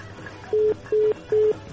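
Three short, identical telephone beeps, evenly spaced and all at one pitch, sound over a faint hiss as a call fails to connect.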